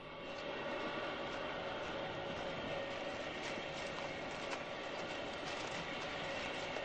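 A passenger train stands still on the tracks beside a rough trackside grave as travelers step out. Its low, steady rumble and hum continue evenly throughout.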